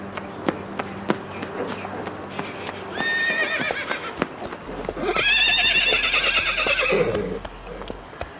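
Horses in a stable whinnying, with a few hoof clip-clops early on; one short neigh is followed by a longer, louder whinny that holds for about two seconds before dropping away.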